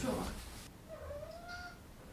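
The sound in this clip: A house cat gives a single drawn-out meow, a thin, fairly faint tonal call that rises slightly and then holds steady, following a brief burst of noise at the start.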